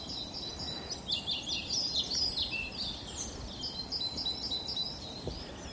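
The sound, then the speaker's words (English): An exotic-sounding bird calls in quick, high-pitched chirps and warbles, repeating short phrases over a faint low rumble, louder through the middle and trailing off toward the end. “It is the most exquisite bird. It's quite almost very exotic sounding.”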